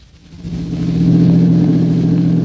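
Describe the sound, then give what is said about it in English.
A car engine rumbles with a low, steady hum as the car drives up. It grows louder over the first second, then holds level, with no voices. “Mary and Dr. Nelson are driving up to Tom's boarding house.”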